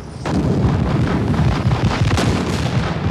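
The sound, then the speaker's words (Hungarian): Artillery battery firing during a battle: a dense, continuous roll of overlapping low booms and bursts that begins abruptly and stays loud and rumbling throughout. “Az üteg újra tüzel.”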